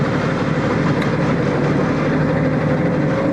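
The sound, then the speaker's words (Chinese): A large vehicle's heavy engine runs in drive as it pulls away, giving a constant, loud low rumble with broad mechanical noise that holds steady throughout, without clear bursts or pauses. “油门稳住，油门稳住，油门稳住。 跟小车、大车跟小车的油门不太一样，也有点重。”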